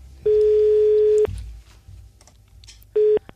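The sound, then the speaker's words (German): A telephone tone sounds as a call is placed: one steady electronic beep lasting about a second, a stretch of faint low hum, then a second, shorter beep at the same pitch. “die Julie werden wir jetzt mal anrufen.”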